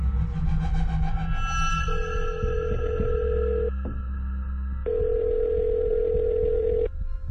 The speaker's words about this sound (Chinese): 好，我即刻打俾佢先。